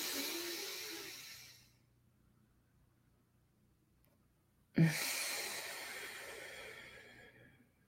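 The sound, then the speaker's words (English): Deep breathing through both nostrils during a guided breathing exercise: a long, airy breath fades out into silence. A second full breath then starts abruptly, sustains and slowly tapers off. “just a full inhale through both nostrils. And exhale. Two more. Inhale.”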